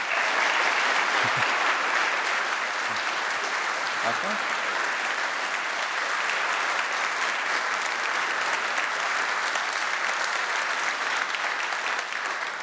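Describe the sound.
Audience applause welcomes a speaker onto the stage at a public evening lecture. Dense, steady clapping holds at an even level for the full stretch without a break.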